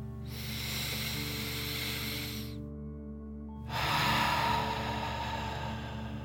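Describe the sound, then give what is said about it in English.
A deep breath is drawn in as a long, soft rushing sound, then after a short silence it is pushed out through the mouth in a louder, breathy gust, over a steady low background tone. “and then out through your mouth, pretending you are breathing fire. Ready? Okay. Deep breath in and out.”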